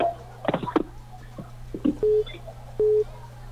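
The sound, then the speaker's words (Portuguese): A busy tone follows a dropped phone call: two steady, mid-pitched beeps sound evenly apart over a low hum, after some earlier clicks and handling noise on the line. “Eita, nós, caiu, né? Essas ligações caem pra caramba.”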